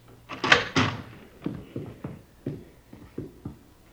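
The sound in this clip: The dining-room door of a house being opened: a run of wooden clunks and thumps, with two louder knocks first and then several lighter, evenly spaced knocks.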